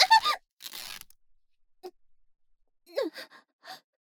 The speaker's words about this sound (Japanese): 姫であり騎士団長である私の服を破るなんて。